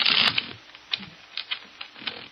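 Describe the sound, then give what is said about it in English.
Playing cards being shuffled as a deck during a card trick: a dense, papery riffle burst at the start, then several soft, separate clicks and taps as the cards settle. “Now, put it back in the deck. Shuffle the cards.”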